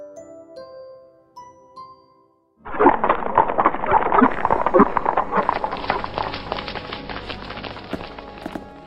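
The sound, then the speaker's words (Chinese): A horse-drawn carriage carrying a king and princess arrives with guards: light bell-like tinkles at first, then after a short silence a loud, steady clatter of rapid hoofbeats that continues to the end. “国王和公主坐着马车，带着侍卫们，浩浩荡荡的来了。”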